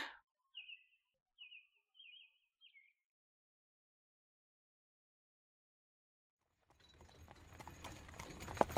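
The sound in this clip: The hooves of a horse pulling a carriage clip-clop four times, faint and evenly spaced. After a pause, a rolling rattle of movement builds steadily toward the end.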